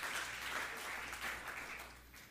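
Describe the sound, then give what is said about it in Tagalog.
Applause from a church audience during a sermon, dense, steady clapping that holds at an even level from start to finish without a break. “Sige, palakpakan mo yung Panginoon.”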